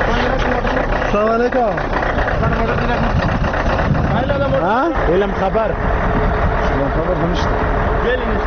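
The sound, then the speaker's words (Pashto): Loaded cargo trucks drive on a road in Paktia, Afghanistan. The heavy engine roar is loud and continuous, with pitch sweeping upward several times as the engines rev. “راپور د بارونکو موټرو په ژغ پیلېږي”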